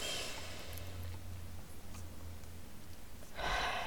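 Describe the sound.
A deep breath held and then released during a guided breathing exercise: near-silence with only a faint low hum, then a soft, breathy exhale swells at the very end.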